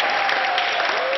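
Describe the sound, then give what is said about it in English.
Hospital staff cheer and applaud as a Marine Corps veteran who survived COVID-19 and came off a ventilator leaves the hospital. The dense clapping is brief and steady. “So that sound you're hearing, that is the sound of the hospital staff cheering David as he left.”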